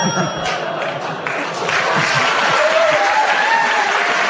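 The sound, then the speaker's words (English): A studio audience at a comedy panel game applauds with steady, dense clapping that fills the whole four seconds at full volume. “The audience showed their appreciation for the way you struggle not to repeat the word wax.”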